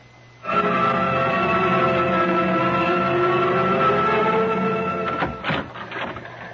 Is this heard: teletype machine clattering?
yes